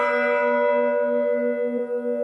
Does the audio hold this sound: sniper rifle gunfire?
no